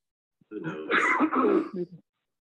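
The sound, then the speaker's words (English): A person coughs in a short, harsh, throaty burst of a few rough voiced pulses lasting under two seconds. The cough is heard alone. “Who coughing? That's COVID.”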